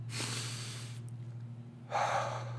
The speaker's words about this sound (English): Stop for a second and just take a deep breath.